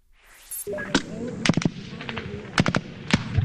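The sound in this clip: Gunfire from a U.S. Marine offensive in the city of Marja, Afghanistan: loud, sharp gunshots crack out irregularly, some singly and some in quick clusters of two or three, with faint voices underneath.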